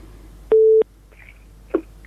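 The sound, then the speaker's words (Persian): A telephone busy tone follows a disconnected call: one short, steady, mid-pitched beep stands out clearly, followed by a couple of faint brief blips. “متاسفانه تماس اینا قطع شد.”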